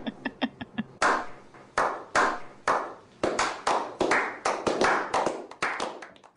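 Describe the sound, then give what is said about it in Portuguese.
A few short, high pinging taps come first, then hands clap in many sharp, irregular claps with brief gaps between them. “A gente bate palminha, parabéns, achei sensacional.”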